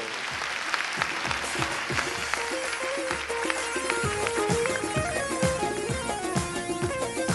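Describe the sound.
An audience at a seminar claps together, with dense, steady clapping throughout. Pitched music plays along at the same time.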